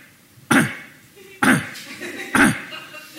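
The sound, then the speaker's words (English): A person imitates a small rescue Pomeranian with a crushed trachea coughing, giving three evenly spaced, harsh, honking coughs with short quiet gaps between them. “She opens the door, and the dog is coughing. It goes like,”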